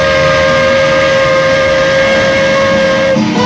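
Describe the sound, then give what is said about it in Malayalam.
A train departs from a railway station with a loud, continuous rumble and a sustained steady tone running throughout, which shifts slightly just before the end. “ഒടുവിൽ train പുറപ്പെട്ടു.”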